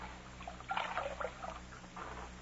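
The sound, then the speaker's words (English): Water poured to wet a scarf for washing a bullet wound, heard as soft, faint splashing and trickling in a few uneven bursts, with no talk. “Let me wash his wound. Take a look at it. I'll wet the scarf.”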